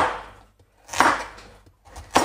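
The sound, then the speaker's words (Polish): A knife chops food into bite-sized pieces of about two to three centimetres. A few sharp, crisp cuts are separated by short quiet gaps, with no talk over them. “I na takie kawałki, jakieś 2-3 centymetry czyli mniej więcej jeden kąsek. Kroimy.”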